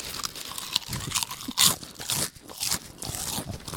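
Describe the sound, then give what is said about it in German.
Potato chips crunch as people eat them in a timed 60-second eating challenge. Many sharp, irregular crunches and chewing noises overlap without pause. “Wir essen jetzt 60 Sekunden Chips, oder? 60 Sekunden Hardcore-Chips essen.”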